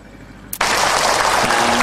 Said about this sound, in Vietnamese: Rất là cảm ơn những đàn pháo tay của quý vị Phật tử.